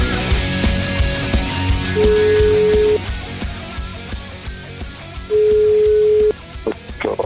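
Telephone ringing tone heard while placing a call: two steady, mid-pitched tones, each lasting about one second and separated by a pause, over a noisy background.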